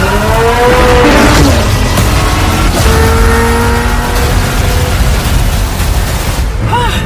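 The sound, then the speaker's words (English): Loud engine roar from a twin-turbocharged V8 supercar with a carbon-fiber frame, driving fast; a continuous, heavy drone with shifting engine tones that holds steady for the full stretch. “The reason this car is one of the fastest on the planet is because of its twin turbocharged V8 engine”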